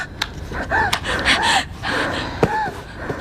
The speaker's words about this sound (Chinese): 深呼吸，深呼吸， 我不想死。 深呼吸， 我 深呼吸，